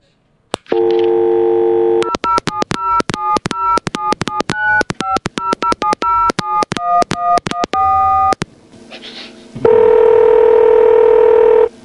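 Telephone dialing begins with a dial tone, followed by a long, loud run of many rapid touch-tone key beeps at shifting pitches. A brief pause follows, and then a steady, loud line tone sounds alone.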